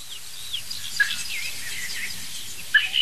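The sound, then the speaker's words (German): Young birds call with a few faint, high chirps and thin squeaky sweeps over a quiet background, and two sharper chirps stand out. “Hundertprozentig auch Jungvögel.”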